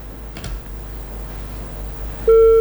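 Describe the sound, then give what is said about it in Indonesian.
A telephone call disconnects, ending in a single short, steady electronic beep after quiet line hiss and a faint click. “teleponnya terputus”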